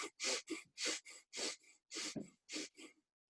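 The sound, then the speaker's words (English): Rapid, deep hyperventilating breaths are drawn very quickly, with deeper inhales than exhales. The faint, rhythmic breathing alternates a strong, rushing breath with a shorter, weaker one over several quick cycles. “You're doing this all through breath, so you're taking deeper inhales than exhales and very rapidly.”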